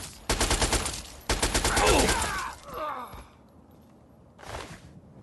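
Rapid automatic gunfire from a video game: two loud bursts of fast shots in close succession, a fainter rattling tail, then one brief, quieter sound near the end.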